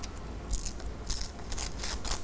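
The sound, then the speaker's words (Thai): A glossy yellow magazine page is torn by hand in a few short, crisp rips of moderate volume, with no talking. “ใช้มือในการฉีกกระดาษออกมาด้วย”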